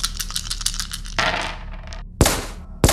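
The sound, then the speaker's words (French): A bonus die rolled during a tabletop role-playing game: a rapid rattling clatter, then a brief skittering wash, followed by two sharp clacks as it settles. “Et là, je peux lancer mon dé bonus, du coup, vu que j'ai fait deux réussites.”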